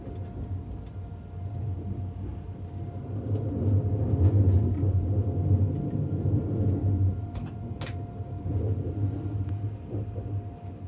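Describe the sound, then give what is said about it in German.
A long-distance train just out of Stuttgart rolls slowly at about 40 km/h through a narrow set of switches, giving a steady low rumble with a few faint clicks and ticks over it. “Jetzt fahren wir durch den engen Weichenbereich, deswegen die 40 km/h.”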